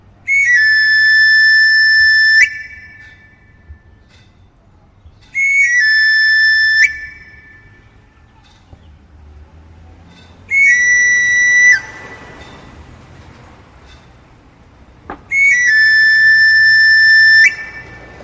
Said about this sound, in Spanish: El sonido del afilador es sumamente evocador y es muy bello, además.